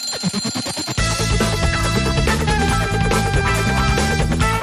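A radio morning wake-up jingle styled as an alarm clock: about a second of rapid, evenly spaced ringing pulses, then a loud, full musical passage with sustained tones.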